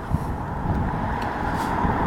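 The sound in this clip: Cars passing beside someone walking along a road, heard as a steady, continuous traffic roar with slight swells as vehicles go by. No voices.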